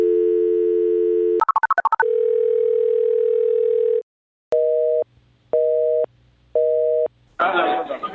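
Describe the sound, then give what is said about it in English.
A Skype call dials out: a steady electronic tone, a rapid burst of dialing beeps, another long steady tone, then three pulsed ringing tones separated by short silences, ending in a sudden burst of noise. “So we're just going to give it a try. It's going to be great. All right. I'm dialing.”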